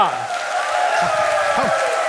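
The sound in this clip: Applause from an audience welcoming performers onto a stage, a dense, steady roar of clapping that carries through the whole moment, with voices mixed into the crowd noise.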